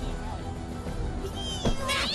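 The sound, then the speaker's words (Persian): A cat meows in a high, wavering cry that rises above steady background noise, with a person's voice also present. “پیشی جون بیا با نمک”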